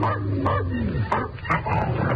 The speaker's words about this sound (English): Where's that dog? Probably in the elevator.